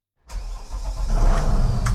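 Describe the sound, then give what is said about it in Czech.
A motor boat engine of the Slapy river police roars to life as the boat sets off, a deep, steady rumble that grows louder and fuller after an abrupt start. “S vedoucím pořičního oddělení Slapy Davidem Bernardem teď tedy vyjíždíme na člunu.”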